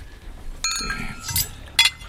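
Two bright, ringing clinks of wine glasses touching in a toast over a bottle of Barolo at a dinner table, each a short glassy chime with a brief shimmering decay, separated by soft rustling.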